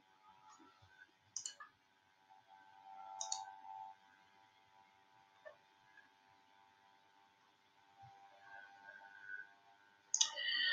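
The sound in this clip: Faint computer mouse clicks while building a website on a computer: a few sharp, isolated clicks spread out over a steady, low background hum.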